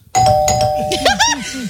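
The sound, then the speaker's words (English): Doorbell sound effect: a bright electronic chime tone rings out and holds, while voices talk over it. “I'll hit him with the doorbell.”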